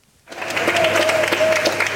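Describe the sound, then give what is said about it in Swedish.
Applause from waiting relatives greeting arriving passengers at Ben Gurion Airport in Tel Aviv. After a brief quiet moment, the clapping swells in and continues as a dense, steady patter. “Med applåder, kramar och tårar tog väntande anhöriga emot sina nära och kära på Ben Gurion flygplatsen i Tel Aviv.”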